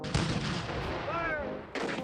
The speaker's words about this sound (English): Fire! The Confederates fire on Fort Sumter on April 12th and 13th of 1861.